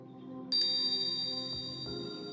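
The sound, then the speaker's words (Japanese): A single clear strike of a hypnosis bell after a faint low hum. The bright ring stays steady and then slowly fades, with no other sound alongside. “ベルの音が聞こえますか？これは催眠ベル。”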